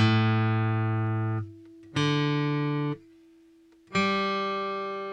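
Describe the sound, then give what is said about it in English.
Bright, somewhat tinny chords strummed with a flat pick: three loud strums about two seconds apart, each ringing for roughly a second before being damped into near silence. “With a flat pick, you also get a little bit more of a tinnier sound like this.”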